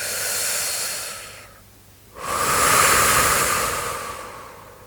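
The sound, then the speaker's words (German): A deep breath out, a brief quiet pause, then a long deep breath in. Both are loud, airy hisses, with no talk. “Atme ganz fest aus. Und wieder ein.”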